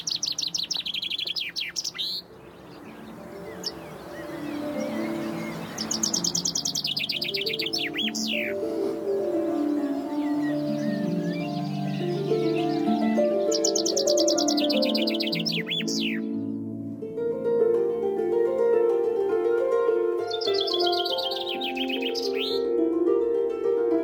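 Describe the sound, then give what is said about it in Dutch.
Chaffinch song: four bright, rapid trilling phrases, each ending in a quick flourish, spaced a few seconds apart with steady sound continuing between them. “Vogelkundigen die kunnen geblinddoekt hun weg vinden door het Zwarte Woud, om ze precies te weten waar welke variant van de vinkenslag voorkomt.”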